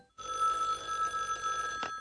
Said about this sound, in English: He was about to fix a snack when the phone rang.